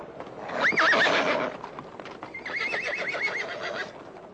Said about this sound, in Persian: سواری به سوی ما می آید